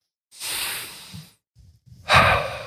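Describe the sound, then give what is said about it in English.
Deep breathing in and out through the nose: a long airy inhale, a short pause with faint low rustling, then a stronger, rougher exhale starting near the end. “In and out through the nose.”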